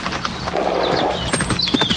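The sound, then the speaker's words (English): A horse ridden fast gallops past, its rider bent low: rapid, uneven hoofbeats drum steadily over the two seconds, with a few faint higher chirps above them. “Now look yonder at that fool kid. He's gonna run somebody down riding that way. Well, he's trying to ride like an Indian. Look how low he's bent.”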